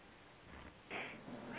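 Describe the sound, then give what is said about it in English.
A cat meowing faintly, with a couple of short, soft meows that rise out of a low background hiss. “But the cat has a lot to say.”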